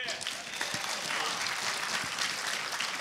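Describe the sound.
Steady applause from an audience welcoming a guest speaker at an evening gathering: a dense, continuous clatter of clapping that holds at an even level for the whole stretch.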